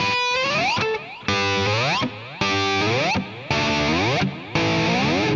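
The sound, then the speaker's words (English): A distorted electric guitar plays double-stop slides from the 12th fret, two strings gliding upward together in repeated whooping phrases separated by short gaps. “I just tap my finger on the 12th fret and did a little double stop slide. So I'm hitting two strings and sliding them up.”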